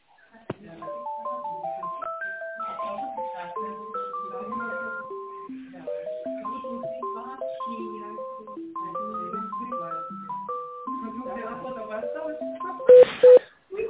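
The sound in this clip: An electronic hold melody plays during a phone call transfer, a simple tune of steady beeping tones stepping up and down, ending in a short burst of louder tones.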